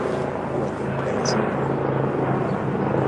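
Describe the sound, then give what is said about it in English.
Helicopters and airplanes fly overhead during a burst of emergency activity, a steady, moderate engine drone that holds evenly from start to finish. “All of a sudden we have some activity, airplanes and fire trucks,”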